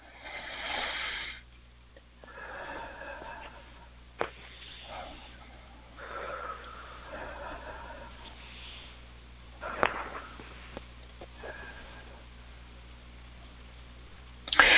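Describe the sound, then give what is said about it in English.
Deep breaths taken during a guided meditation: several slow, soft rushes of air as inhales and exhales, separated by quiet pauses, with a few brief sniffs. “3 nice deep breaths.”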